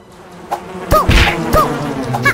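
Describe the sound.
Bee buzzing in a video game, heard as a few short, buzzy bursts with quick chirp-like electronic tones. The bursts are spaced irregularly over a low, steady game backdrop.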